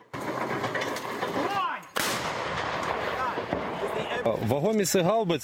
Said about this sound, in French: l'armée ukrainienne résiste, elle pilonne les positions russes grâce au système d'artillerie occidentaux.